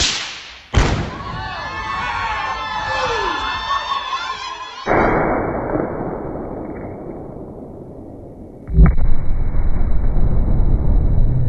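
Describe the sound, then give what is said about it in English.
A rifle shot fired from 200 yards hits an exploding target, giving a sudden heavy boom that turns into a long, noisy roar with voices over it, then a second loud burst near the end. “And then to shoot the rifle from 200 yards away, that's a woman not to mess with.”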